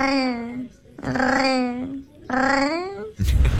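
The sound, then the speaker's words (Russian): A cat makes unusual, drawn-out meowing calls: three long, wavering, tonal cries of about a second each with brief gaps between them, then a rough, noisy burst at the end. “Мне тут попался кот, необычный очень кот, который мурлычет, как настоящий парижанин.”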